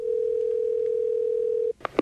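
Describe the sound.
A steady single-pitch telephone dial tone hums as a prank call is placed. It cuts off abruptly and is followed by a few short, sharp dialing beeps.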